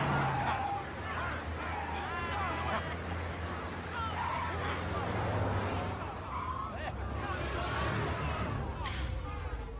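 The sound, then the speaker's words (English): A car driving past gives a steady rumbling road and engine noise that fills the whole stretch without a clear peak, with people talking over it. “Oh, it's over. Like, all right, they drove past. No, it just keeps going and it gets worse.”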